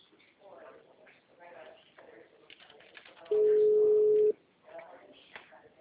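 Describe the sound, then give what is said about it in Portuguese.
A single steady, mid-pitched telephone tone lasting about a second, heard during a call to the Embalei company, cutting loudly through muffled phone-line voices that talk before and after it. “eu liguei no número da Embalei”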